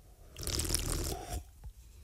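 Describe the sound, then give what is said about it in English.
Sipping cold cider from a can: about a second of wet, hissing slurp and liquid noise, followed by a quieter gulp or smack. “I'm just going to open this can of cold cider beverage. Mm-hmm. There you go. That was the sound of a can opening. And just have a little sip.”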